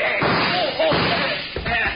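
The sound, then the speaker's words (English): Gunshot sound effect in an old radio crime drama, a shot that knocks a gun out of a man's hand, heard as a sharp, muffled bang among talking voices. “Good work, Keith. You shot the gun right out of his hand.”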